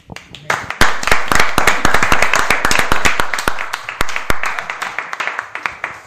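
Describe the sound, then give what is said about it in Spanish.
Applause with loud, crisp individual hand claps standing out sharply over a steady clapping texture. It is sustained for about six seconds and thins toward the end. “Yo creo que eso se merece un aplauso.”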